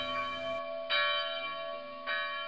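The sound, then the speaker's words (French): Church bells ring for vespers in the churches of Miliana, Algeria, with a steady, sustained metallic hum. Two fresh strikes land about a second apart over the lingering tone, fairly soft overall and with no talk. “Voilà les cloches parties, nous en avons pour longtemps.”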